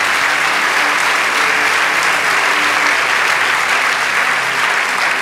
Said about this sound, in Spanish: Vamos, dale ese aplauso.